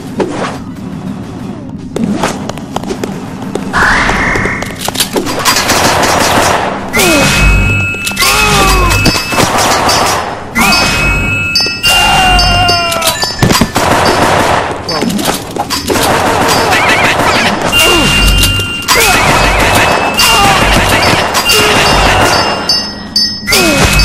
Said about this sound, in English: These guns will shoot bullets at you.